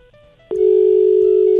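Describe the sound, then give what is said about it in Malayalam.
Telephone dial tone after a call is cut off: a short quiet stretch with faint tones, then a click and a loud, steady continuous tone that holds to the end. “അയ്യോ, രാജചേച്ചിയുടെ phone കട്ടായി പോയല്ലോ.”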